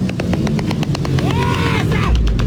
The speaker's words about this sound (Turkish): Onlarca motosikletli peş peşe tek teker üzerinde ilerleyerek gösteri yapıyordu.